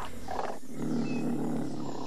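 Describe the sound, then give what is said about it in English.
A black-furred big cat roars once: a single low, rough, sustained roar of about two seconds at fairly steady loudness, with no other sounds. “Roar! Hello, I am a stealthy mammal with a coat of black fur, sharp claws and long whiskers, totally adapted to hunt other animals.”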